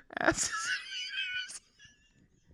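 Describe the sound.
A man imitates Scooby-Doo in a wheezing, whining voice: one drawn-out, high, quavering wail that ends in a short cut-off squeak, then near quiet.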